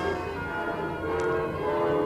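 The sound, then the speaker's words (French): Train station ambience at the Gare de Lyon with a train present: a steady, fairly loud low rumble layered with sustained tonal hums and a brief high hiss midway, no voices. “Oui, je suis à la gare de Lyon.”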